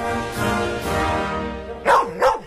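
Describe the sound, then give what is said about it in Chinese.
Two sharp dog barks come in quick succession, loud and distinct, after a quieter, tonal stretch of sound. “二郎神哮天犬怎么又忘了？”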